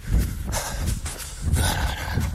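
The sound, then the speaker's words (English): Heavy breathing close to a microphone, loud rhythmic rushes of air in and out in quick succession, with nothing else heard. “Don't breathe heavily at people without warning them.”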